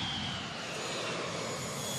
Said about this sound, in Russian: Самолет заходит на посадку.